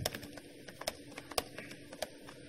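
Typing on a computer keyboard: faint, irregular clicks and taps in quick bursts with short pauses between them.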